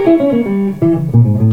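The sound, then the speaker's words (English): A diminished arpeggio played over an A7 chord in gypsy jazz style: a brisk run of single, clearly separated notes, loud and unaccompanied, picked in quick succession across two short phrases. “So here's what that sounds like. When you have an A7,”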